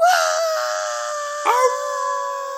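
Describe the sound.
A dog howls in one long, sustained, wavering tone with rich harmonics. There is a brief pitch wobble and a slight swell midway through before the howl settles and continues alone.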